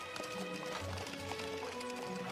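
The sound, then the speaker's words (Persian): Hooves clip-clop from a horse pulling a nobleman's carriage, a faint, steady run of rhythmic taps. “وای، اون یک کالسکه ی اشراف زاده نیست؟”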